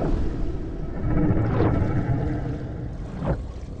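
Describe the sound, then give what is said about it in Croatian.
A voice imitates whale speech with two drawn-out, gliding moans spaced apart over a low, murky rumble, all fairly faint. “Samo prestani isprobavati kitovski.”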